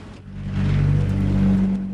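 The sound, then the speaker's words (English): A car's engine drones as the car swerves and veers off the road. The low hum swells louder after a moment and holds a steady roar before easing slightly at the end. “Jim's car swerves. Ryder smiles smugly to himself. He shakes his head and veers off the road in a different direction.”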